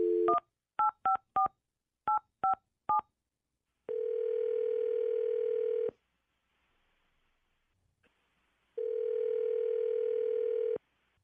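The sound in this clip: Touch-tone telephone dialing: a rapid series of short keypad beeps, followed by two long, steady ringing tones separated by a stretch of silence.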